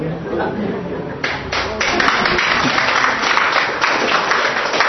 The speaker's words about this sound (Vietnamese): Thôi thôi đừng có vỗ tay